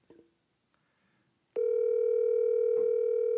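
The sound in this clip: A steady electronic telephone tone from an outgoing call that rings out unanswered starts abruptly after a near-silent stretch, then holds level and unbroken to the end.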